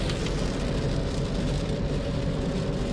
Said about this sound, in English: It's pouring down rain. So if you hear that in the background, there it is.